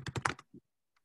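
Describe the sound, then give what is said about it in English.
Typing on a computer keyboard: a quick run of four or five crisp keystrokes, one more tap after a short gap, then a couple of very faint clicks before silence. “So I'm typing next to them, the opposites, right?”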